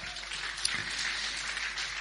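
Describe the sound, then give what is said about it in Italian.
Fairly faint, steady applause from the audience at an aged care service award ceremony as a dignitary is called to the stage. It forms an even wash of clapping without clear breaks. “Big round of applause.”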